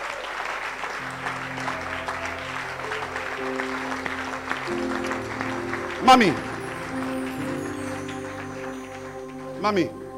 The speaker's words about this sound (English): Stand to your feet. Clap your hands.